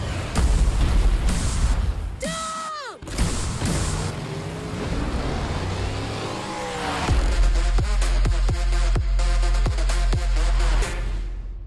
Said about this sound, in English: All right, so you just listened to the trailer for The Fate of the Furious, and it is the eighth film, Fate, F8, in the Fast and Furious.